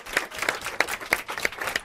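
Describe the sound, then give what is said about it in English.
Sparse, fairly faint clapping from an audience at a press event honoring a school principal: a few sharp claps land at a steady, evenly spaced rhythm rather than merging into a dense roar. “Let's give a round of applause to Principal Dockery”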